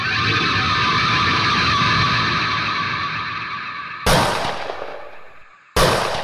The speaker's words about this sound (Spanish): El pesado estruendo de la escopeta había estallado. Desde una distancia de 20 metros, la doble descarga le alcanzó en el pecho.